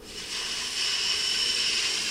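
Wind blows over drifting pack ice as a steady, rushing hiss. It swells slightly after the first moments, then holds loud and even, with no voices.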